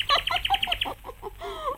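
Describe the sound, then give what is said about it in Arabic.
Sparrow chirping: a quick run of bright, high chirps gives way to lower, warbling call notes, all fairly loud and close together. “تعال يا عصفور يا صغير. خد من ايدي فتفيت السكر”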